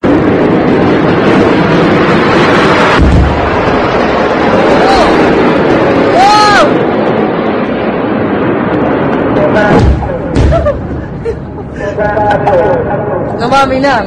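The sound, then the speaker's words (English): Rocket attack explosions in Israel: a couple of heavy, deep booms stand out against a continuous loud rumble, with voices heard throughout. “Yeah, that's Israel being rocket attacked again.”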